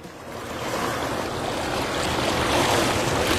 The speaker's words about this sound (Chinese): 我们一起来听听来自海洋的声音吧。